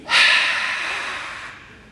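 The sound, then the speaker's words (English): A single forceful breath blown out into someone's face: a sharp, airy rush that starts loud and then fades away over about a second, with no talk. “The only time I've ever had someone breathe in my face like that”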